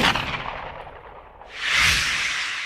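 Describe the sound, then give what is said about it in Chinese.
A pistol gunshot sound effect in a drama, heard as a broad, noisy blast with a low thump that swells up and lingers after a stretch of rushing background noise. “一面从腰间摸出手枪开了保险。黑洞洞的枪头对准面无表情的冬至，阴雨三郎扣下了扳机。”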